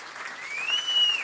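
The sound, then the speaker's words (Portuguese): An audience applauding during a speech, a dense, even patter of many hands that rises slightly in level over a second or so, with a faint high tone above the clapping. “Cid Ferreira Gomes, hoje senador, a quem eu queria pedir uma salva de palmas”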